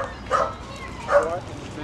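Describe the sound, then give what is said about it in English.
Dogs, including pit bulls, coming out of a truck give two short, moderately loud yelping barks spaced about a second apart over a low background hum. “And out of the truck, the dogs come last. The pit bulls looking scared. Smaller dogs are carried.”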